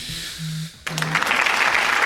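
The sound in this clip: Applause for a football coach guest on a sports talk program breaks out abruptly after a brief spoken word, then continues as a dense, steady patter of many claps through to the end.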